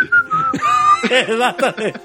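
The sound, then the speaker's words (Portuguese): A person whistles to imitate the Curiosity Mars rover: a steady high whistled tone, then a run of wavering, warbling tones, with no words spoken. “Inclusive, teria que botar esse assovio, né? É. Por que que a nave tem um apito? Não, por que que ela assovia?”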